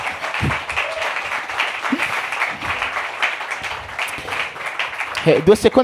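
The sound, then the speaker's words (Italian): Audience applause at a comedy night, continuous clapping held for several seconds with voices speaking over it and a louder voice coming in at the end. “Un applauso, dai.”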